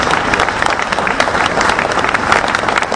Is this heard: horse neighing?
no

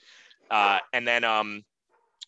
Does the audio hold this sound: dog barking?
yes

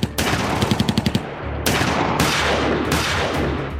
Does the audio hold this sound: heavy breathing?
no

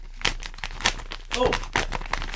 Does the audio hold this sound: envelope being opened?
yes

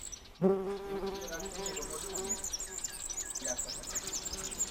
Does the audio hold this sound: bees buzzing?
yes

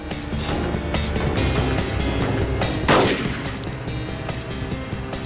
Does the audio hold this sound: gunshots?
yes

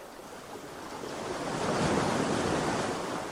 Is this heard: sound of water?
yes

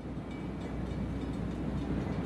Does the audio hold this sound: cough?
no

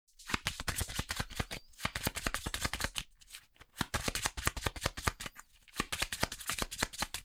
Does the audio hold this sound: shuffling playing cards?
yes

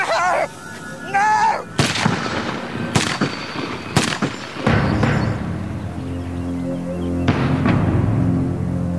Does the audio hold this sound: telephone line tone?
no

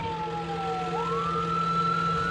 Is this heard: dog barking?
no

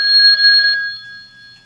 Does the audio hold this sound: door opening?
no

